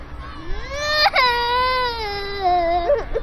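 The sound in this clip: A person crying loudly alone: a sustained, tonal wail with a sharp catch near the middle, its pitch sagging slowly downward before a brief sobbing hitch at the end, with no other voices.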